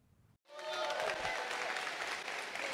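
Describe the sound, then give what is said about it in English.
Audience applause welcoming a pastor at a church service: after a brief pause, dense clapping from a crowd starts abruptly and stays loud and steady to the end. “So, will you get up on your feet, put your hands together, give them a great big Five Stones family welcome to Pastor Derek Dale?”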